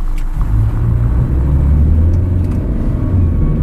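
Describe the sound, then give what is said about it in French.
A pickup truck drives along a country road beside fields, its engine giving a loud, steady low rumble that holds constant throughout with no breaks. “Un pick-up est venu récupérer des Vietnamiens au bord d'un champ. Alors on va le suivre jusqu'à sa destination, chez le verger de Madame Wan”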